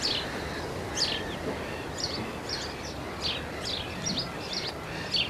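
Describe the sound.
Seabirds and woodland birds chirp in a general outdoor ambience, with many short, high chirps scattered over a steady background hiss.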